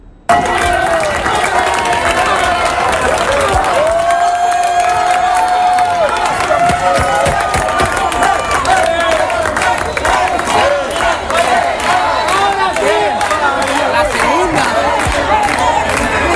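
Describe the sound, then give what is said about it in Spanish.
A crowd in Santa Cruz de Tenerife cheering Spain's victory over Argentina: a dense, loud, continuous roar of shouting voices, with a sustained steady tone rising above the din for a couple of seconds early on. “Se oía por ahí entre el público esa marabunta de gente. Una barbaridad.”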